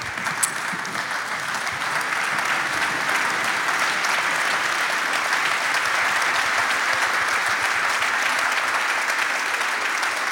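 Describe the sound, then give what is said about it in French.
Dense audience applause for an Olympic archery medallist at a standing ovation, a steady, loud wash of many hands clapping for the whole stretch, with no pauses. “Vous pouvez vous lever, standing ovation peut-être pour eux.”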